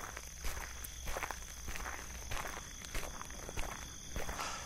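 Footsteps of someone walking back, a steady run of soft treads with slight peaks, over a constant background hiss.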